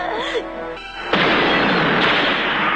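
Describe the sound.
A gas explosion in a dramatized scene: brief voice-like sounds give way to a sudden loud blast, followed by a sustained roaring rush that holds steady to the end.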